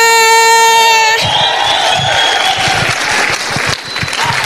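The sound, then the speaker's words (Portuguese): Church audience applauding and cheering to welcome a bishop, a dense burst of clapping mixed with crowd shouts that follows a short held tonal note and carries on steadily to the end. “Com uma salva de palmas, vamos receber Bispo Frank Ochoa!”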